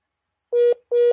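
A telephone tone sounds after a dropped call: two identical, steady, mid-pitched beeps separated by a brief silence, loud and alone.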